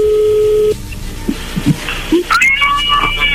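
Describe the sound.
Telephone call connecting: a steady line tone cuts off, then a few short electronic beeps and chirping tones follow, loud and alone with no voices.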